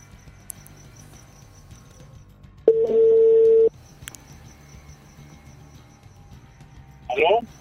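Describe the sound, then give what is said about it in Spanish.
A single steady telephone tone sounds for about a second as a call is being dialed, standing out clearly against quiet background sound, with a brief burst of another sound near the end. “Vamos a hacer una llamada, a ver, vamos a ver qué onda. A ver si funciona.”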